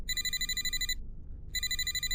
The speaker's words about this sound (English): my phone rang. Saved by the bell.